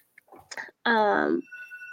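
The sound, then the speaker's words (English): A telephone rings with a buzzy electronic ringtone, a strong tone held for about half a second and then fainter steady notes. Brief softer sounds come just before it. “I don't know where that phone is.”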